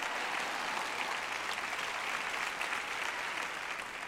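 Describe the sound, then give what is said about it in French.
A woman applauding in an audience: dense, continuous hand claps that stay steady and fairly loud for about four seconds without a break. “J'ai une dame qui applaudit par ici. Applaudis plus fort, d'accord?”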